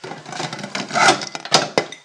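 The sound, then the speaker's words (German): Ceramic dishes clatter and clink as a deep plate is pulled from the bottom of a stack, a jumbled run of rattling contacts ending in two sharp, loud knocks, with no talking. “ich wollte einen Teller, dann muss ich hier einen tiefen Teller nehmen und von ganz unten, na toll, das bricht doch mir hier alles zusammen.”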